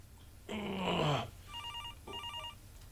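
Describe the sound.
A dropped cell phone rings without stopping, its warbling electronic trill sounding in two short bursts after a louder, rougher burst of sound.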